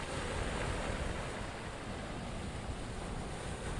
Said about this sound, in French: Il est devant l'océan. Des grosses vagues